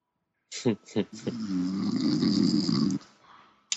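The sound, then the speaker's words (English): A man snores during a tabletop horror role-playing session. A few short sharp snorts lead into one long, rasping, rattling snore lasting well over a second, then a brief sniff after a pause. “Is that a dog or what? Or is that, a person? Is that the colonel snoring? I think it might be.”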